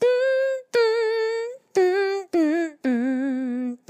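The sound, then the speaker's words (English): A woman plays a tune with her nose, producing five nasal, reedy sustained notes with short breaks between them. The pitch mostly steps downward, and the last long note wobbles with a vibrato. “plays a rare musical instrument, her nose. It kind of sounds like this.”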